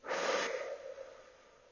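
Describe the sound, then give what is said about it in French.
A single slow breath makes an airy rush of air that swells quickly, then tapers away softly, heard alone without talk. “J'inspire tranquillement par le nez et j'expire lentement par la bouche.”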